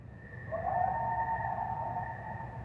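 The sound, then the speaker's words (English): A coyote in western North America lets out a single drawn-out tonal howl. It swells in after about half a second and holds a steady, clear pitch, fairly faint over a low background rumble. “If you live in the West, there's a good chance you've heard this sound. The coyote, a native species of North America,”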